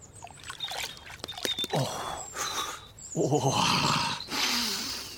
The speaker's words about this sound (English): There is nothing like washing your face in a birdbath.